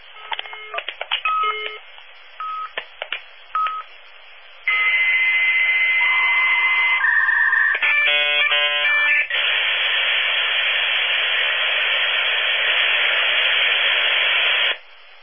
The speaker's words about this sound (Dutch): Dus ik heb hier een laptopje staan en met Windows 98 erop. Daar heb ik een modemkaartje voor gekocht.